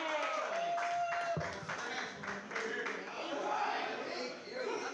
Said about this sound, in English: Yeah, put your hands together for Billy Gauss.